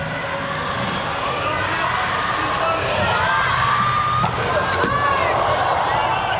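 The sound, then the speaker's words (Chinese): A volleyball bounced a couple of times before a serve during a tense match. The sharp, brief thumps sit under continuous loud crowd noise and cheering. “换上石川来发球了， 替换山本圭吾”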